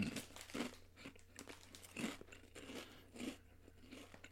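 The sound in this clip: Faint crunching of kebab-flavoured potato chips from Egypt, mixed with crinkling of the bag. A few louder crunch bursts stand out over a steady low hum.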